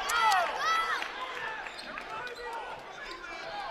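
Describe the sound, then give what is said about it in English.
A basketball is dribbled up the court during a women's game, with a crossover move. Its bounces come in a steady rhythm beneath an announcer's continuous play-by-play. “Between the circles, crossover dribble up the left side.”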